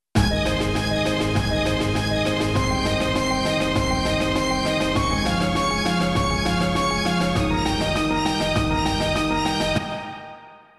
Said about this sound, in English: So when you add in those percussion instruments, it sounds like this.